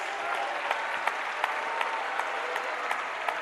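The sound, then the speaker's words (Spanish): Applause from a church audience giving praise, a steady wash of many hands clapping at moderate volume, with a few sharper individual claps standing out throughout. “Cuando le dan un aplauso a la gloria de Dios”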